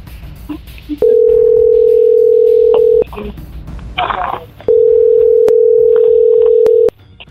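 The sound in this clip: A telephone dial tone hums loud and steady in two long stretches during dialing, broken by a short noisy burst between them and a few brief key beeps, with faint voices underneath at the start.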